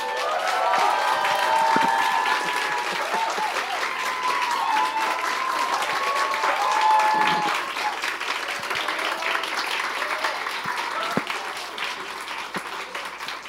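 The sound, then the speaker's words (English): A church audience in Hong Kong stands and applauds a special guest coming up to the front. The clapping is sustained and fairly loud for about ten seconds, then gradually thins. “So let's honor her as we all stand together. And then as she comes up, let's give her a hand.”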